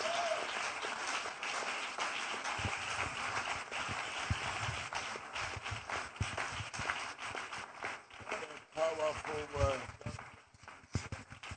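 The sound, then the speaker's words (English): Audience clapping for a pastor, a fast, uneven patter of many hands mixed with voices calling out and talking over it. “Are you clapping for my pastor? Wow.”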